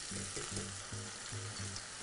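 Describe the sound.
Cooked cavatelli pasta going into a pan of zucchini sauce, a faint, steady hissing sizzle that continues evenly throughout.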